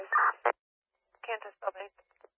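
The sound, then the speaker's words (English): Fire dispatch alert tones sound as two short tone bursts over a radio channel, followed after a pause by a brief clipped voice on the radio. “You set off fire tones for a driver.”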